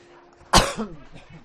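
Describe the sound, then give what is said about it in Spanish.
One sharp, loud cough bursts out abruptly, followed by a shorter, weaker rasp of throat noise, then quiet. “Me ha venido toda la tos”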